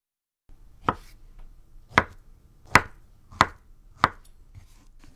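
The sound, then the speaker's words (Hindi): A knife chops peeled vegetable pieces into small one-centimetre cubes, giving five sharp, distinct strikes at a steady, unhurried pace, with a fainter tap near the end and no talk. “इन निसफ टुकड़ों को लंबाई में काटकर हर टुकड़े के are पार छुरी चलाते हुए 1 सेंटीमीटर के छोटे टुकड़े काट लीजिए।”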